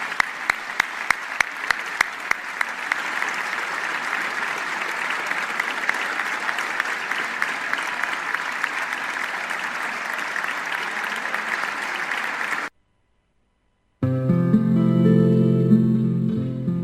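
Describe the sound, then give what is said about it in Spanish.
Sustained applause in a legislative chamber for two deputies, from members across political sectors. Steady, dense clapping with a few sharp separate claps at the start runs for about twelve seconds, then cuts off abruptly into silence before an unrelated sound begins. “El aplauso fue sostenido, con afecto, y de todos los sectores políticos.”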